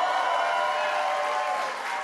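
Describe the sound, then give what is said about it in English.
Applause from a room audience at a political speech, a dense, steady wash of clapping that holds evenly throughout without any break. “I'm curious if everybody in the room is applauding because they're drunk or if they're like North Korean citizens.”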